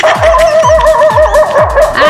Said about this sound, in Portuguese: Os cachorros já tá latindo de fome.